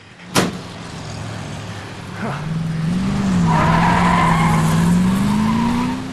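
A speeding car in a radio drama nearly collides with another: a sharp hit, then a sustained tire screech and engine whine that climbs slowly in pitch, loud and steady to the end.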